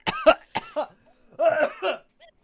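Coughing after accidentally breathing in coffee: a few harsh, partly voiced bursts, two close together at the start and a longer rasping one later, with a faint trailing sound at the end.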